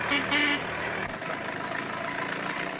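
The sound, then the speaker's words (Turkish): A pickup truck driving off, its engine giving a steady, fairly loud rumble that eases slightly after the first second and then runs on evenly. “ve kamyonet hareket etti”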